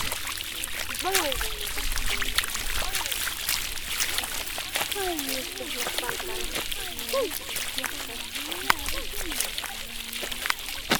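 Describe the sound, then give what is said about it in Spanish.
Continuous sloshing and splashing of a foot stepping into cold lagoon water, a steady wet churning that holds at an even level throughout. “estamos aquí en la laguna sintiendo los sonidos del agua. Y nos zampamos un poco nuestro pie para sentir cómo es el agua y cómo se siente, ¿no?, cuando uno se mete.”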